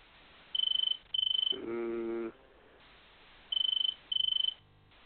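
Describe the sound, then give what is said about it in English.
Cricket chirping: four high, rapidly pulsed trilling bursts, set as two pairs. A lower, steady buzzing tone sounds between the pairs, against faint background hiss. “I don't know if that was a phone or a cricket. Nah, it wasn't a phone because I'm still the only one on the network. So it must have maybe been a cricket.”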